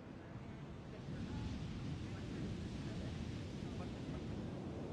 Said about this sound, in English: They gaze at each other in front of the flowing waves.